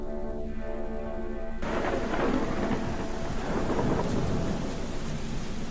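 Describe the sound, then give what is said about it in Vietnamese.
Heavy rain pours down during a windy night thunderstorm: a dense, loud hiss of rainfall with low thunder rumbling beneath, steady and unbroken throughout. “Đêm định mệnh đó là một đêm mưa gió, bão bùng. Ở bên ngoài trời mưa dữ lắm.”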